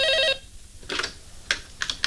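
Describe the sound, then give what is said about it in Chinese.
A short electronic telephone ring sounds at the start, then stops abruptly. A few sharp, faint clicks follow alone, with no voices. “一大早，803和沈西就守候在电话机边上。 哎，来了。”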